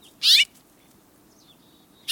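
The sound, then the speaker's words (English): House finch song, from a small brown North American finch: two bright, high chirping bursts, the second cut off at the end, with faint thin notes between them. “Have you noticed those little brown birds with red breasts at your bird feeders? Those are house finches, familiar birds all across North America.”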